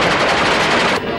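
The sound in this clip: Rapid automatic gunfire from weapons of war at a twice-yearly shooting gathering in Kentucky: a loud, dense, unbroken stream of shots that eases slightly just before the end.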